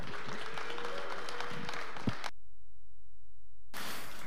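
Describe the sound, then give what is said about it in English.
A church audience applauding as a pastor comes up to speak: dense, steady clapping that cuts out abruptly for over a second, then resumes. “Let's give Pastor Kevin a warm welcome as he comes up.”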